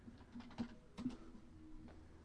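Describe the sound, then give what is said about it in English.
Soft, irregular taps of someone typing an email on a computer keyboard, faint and uneven, with a few slightly louder key strikes. “Hang on, I gotta write an email real quick to my buddy here.”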